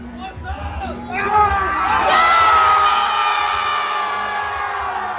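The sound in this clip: A group erupts in cheering and yelling after a win at a roulette table in the Westgate, Las Vegas. The shouts surge about a second in and stay loud and sustained to the end.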